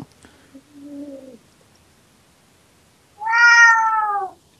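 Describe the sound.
A cat meowing, heard as two meows with a gap between: the first short and soft, the second long, loud and strongly tonal.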